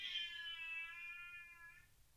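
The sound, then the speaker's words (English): An unhappy cat meows once, a single drawn-out, high tonal cry that drifts slightly downward in pitch and fades, faint and alone. “That was not a baby. That was the cat.”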